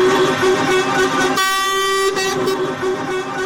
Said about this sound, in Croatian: Kolona od više od 500 kamiona je zagušila glavnu sarajevsku saobraćajnicu uz zaglušujući zvuk kamionskih sirena.